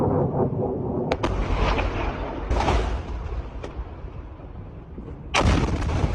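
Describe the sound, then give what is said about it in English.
An Iranian missile crashing and exploding at an air base in Jordan: a few sharp, loud blasts and booms ring out over a constant low rumble, with one heavy burst near the end and no voices. “the terrifying sound of an Iranian missile crashing and exploding at the Mufawak Salty Air Base in Jordan last night”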